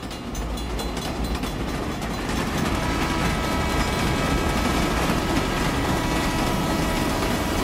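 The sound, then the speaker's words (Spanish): A long-distance train rumbles past in a dense, continuous roar that swells slightly after the first couple of seconds and then holds steady, with no voices. “Suena el tren de largo recorrido. Nos subimos al ferrocarril”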